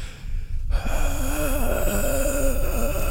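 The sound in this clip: A voice imitates heavy breathing, loud and raspy with a wavering, moaning tone. It begins abruptly after a brief quiet and carries on steadily.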